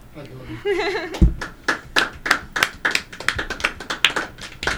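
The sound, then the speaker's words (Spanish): Rhythmic clapping from a few hands: a voice first, then a low thump, then many sharp claps at an even, brisk beat. “Hasta la oposición aplaudió.”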